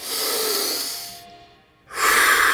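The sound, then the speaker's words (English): A person takes a deep breath in, a long airy hiss, pauses briefly and then lets it out in a stronger, brighter rush of air. “Okay, take a deep breath,”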